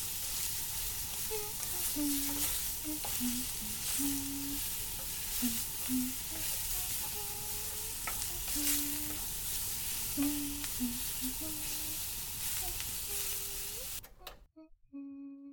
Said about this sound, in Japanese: ウィンナーもついでに入れるから、うまくフライパンで焼いてね。